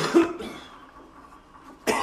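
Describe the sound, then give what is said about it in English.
A man gives a rough, throaty cough, then falls quiet before another cough starts at the very end. “When he coughs, little sparks go off in the air.”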